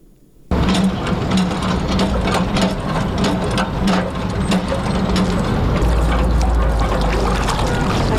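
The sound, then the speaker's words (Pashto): A water pump running in the Khwaja Baghra area of Kabul: a loud, continuous mechanical clatter of rapid rhythmic knocking and churning that starts abruptly after a moment of quiet. “د اوبو دغه بمبه چې د کابل خار د خواجه بغرا په سیمه کې د اوبو په برخه کې د خلکو د ستونزو یو برخه هواروي”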